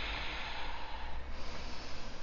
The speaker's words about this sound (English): Three more breaths. Exhale, one.